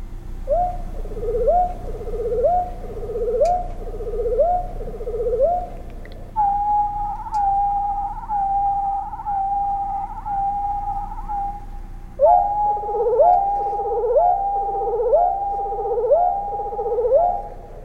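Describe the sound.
A songbird's flourish of repeated, slurred whistled notes: first a lower run from the left voice box alone, then a higher run from the right voice box, then both sounding together in harmony.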